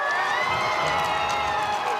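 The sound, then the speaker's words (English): Huge crowds cheer as Pope Leo arrives at Madrid's royal palace: a loud, steady roar of many voices with shouts rising above it, unbroken from start to finish. “huge crowds welcomed Pope Leo at the city's royal palace today.”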